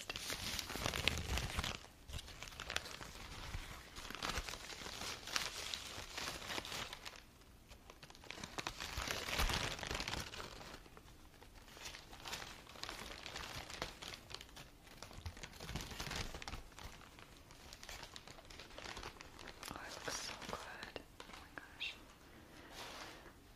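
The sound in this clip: Paper and cardboard packaging is crumpled and handled, a continuous, faint crinkling and rustling that swells and eases throughout, with no voices.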